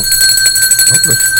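A bell rings with a bright, sustained metallic tone that holds steady and loud throughout, with a faint low murmur beneath.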